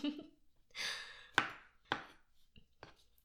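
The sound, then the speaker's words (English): A knife chops mushrooms into tiny pieces: a few faint, sharp cuts at irregular intervals, with a soft scraping rustle before them. “I'm just gonna chop them into tiny, tiny, tiny pieces.”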